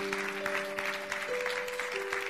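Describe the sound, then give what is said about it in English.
Audience applause at a wedding ceremony: dense, even clapping that continues throughout, with sustained musical tones held underneath and shifting pitch a couple of times. “So let's give a round of applause to those viewing us through the internet.”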